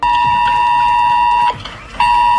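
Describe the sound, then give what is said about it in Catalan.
A mobile phone emergency alert warning of torrential rain blares as a loud, harsh, steady buzzing tone rich in harmonics. The tone drops away briefly near the end, then resumes at full strength. “Era a mig matí quan els telèfons dels maresmencs ha sonat aquest avís.”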